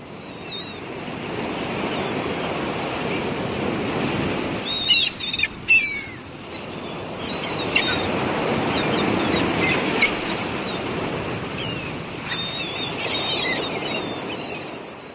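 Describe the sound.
Gentle waves ripple on a calm sea at sunrise, a steady soft wash of water throughout, with bird calls chirping intermittently above it.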